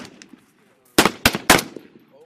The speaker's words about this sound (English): The Bulgarians also taught the Marines how to operate their AK-47 rifles. Automatic same fire.